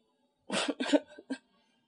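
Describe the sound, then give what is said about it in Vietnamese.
A woman's loud dry cough comes as a few short, harsh, breathy bursts in quick succession, then stops, with silence before and after. “Cô vừa nghe tới từ nhạy cảm, lập tức lớn tiếng ho khan.”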